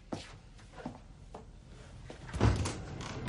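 A door opens as a man leaves a room aboard a ship: a few soft clicks and knocks, then a heavier clunk and rattle, moderately loud over a low rumble.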